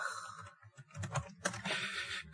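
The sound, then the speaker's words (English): Typing on a computer keyboard: a steady run of quick, soft key clicks at an uneven rhythm, faint and alone with no talk. “Let me type it.”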